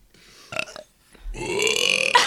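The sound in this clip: A loud, drawn-out burp rumbles for about a second, rough and gurgling, following a couple of shorter throaty bursts, with no talk over it.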